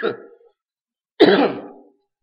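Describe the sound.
A speaker delivering a sermon clears their throat and then coughs in two separate rough bursts, with a short silence between them. The second burst is louder and longer.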